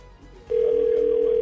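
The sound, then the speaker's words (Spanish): A telephone ringback tone sounds on an outgoing call. After a quiet opening, a loud, steady single-pitch electronic tone starts abruptly and holds unbroken to the end. “Yo creo que este se lo huele, que lo estamos llamando, porque él de vez en cuando, mira, está sonando.”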